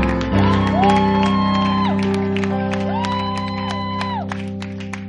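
Church audience claps and cheers to welcome a bishop. Scattered shouts and whoops ring out over sustained music, and the clapping holds steady throughout.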